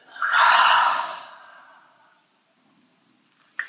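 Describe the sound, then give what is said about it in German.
One deep exhale through the open mouth after a held breath in a breathing exercise, a soft, breathy whoosh that swells and then fades over about two seconds, followed by quiet and a small click. “Und ein letztes Mal tief über die Nase einatmen den Atem halten und jetzt mit geöffnetem Mund wieder ausatmen.”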